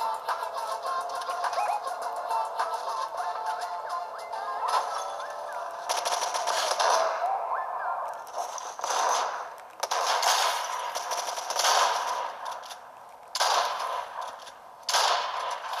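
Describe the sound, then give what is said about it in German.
Sniper rifle gunfire in a video game: several sharp, loud cracking shots burst out at irregular intervals over a continuous bed of game sound. “Sniper Time. Der hatte eine epische Sniper.”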